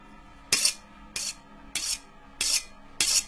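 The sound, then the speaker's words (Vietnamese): A knife is sharpened in five evenly spaced rasping strokes, each a bright, harsh scrape that starts abruptly and trails off, with quiet gaps between them. “Họ nghe có tiếng mài dao xoèn xoẹt xoèn xoẹt vang lên đến ghê hết cả răng.”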